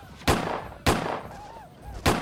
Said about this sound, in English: opened fire on the Sioux.